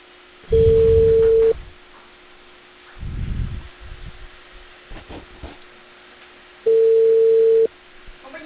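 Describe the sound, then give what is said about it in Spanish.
Telephone ringback tone heard while placing an outgoing call: two steady, mid-pitched tones of about a second each, separated by a long silent gap with faint handling noise between them. “Espera, estoy llamando a Chucuito.”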